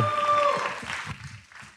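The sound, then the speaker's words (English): Applause from a live comedy show audience at SF Sketchfest greeting a guest on stage: dense, steady clapping with a few voices mixed in, thinning out toward the end. “Put your hands together for Clyde Cloud.”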